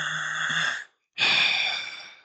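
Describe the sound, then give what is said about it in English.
A deep breath taken by a person: two long, breathy rushes of air, each about a second, split by a brief silent gap. The sound is fairly loud and carries no talking. “He had a deep breath, so I had to do a deep breath.”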